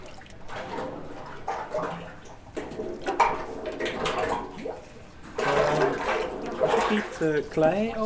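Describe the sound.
Runny liquid clay slip, like very thin cement, poured by hand litre by litre for a new casting series: gushing, splashing liquid in uneven surges, sometimes quieter and then louder again.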